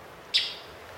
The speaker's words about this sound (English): I'm actually sitting out back today, and you may hear some birds chirping. Yep, those are real birds.